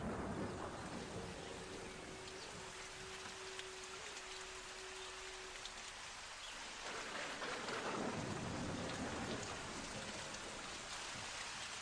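Rain falls in a steady, faint hiss, and a low rumble of thunder rolls through toward the middle before the downpour carries on.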